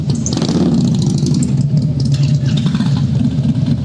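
The mechanic's motorcycle engine rumbles loudly and continuously at a quarter-mile drag strip, giving a deep, throbbing low-pitched drone that stays steady throughout with no voices.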